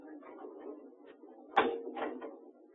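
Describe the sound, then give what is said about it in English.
A cell-block door is opened: one sharp clack near the middle, then a second, softer rattling burst, over a steady low background hum. “All right. I'll get the door.”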